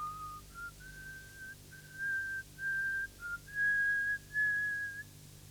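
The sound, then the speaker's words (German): A woman whistles a song alone on a railway platform, a thin, trembling, fairly faint melody in short wavering phrases that rise slightly and then hold higher. “beginnt zu pfeifen, wie ein einsames Mädchen aus Langeweile vor sich hin pfeift. Aber es ist eines unserer Lieder”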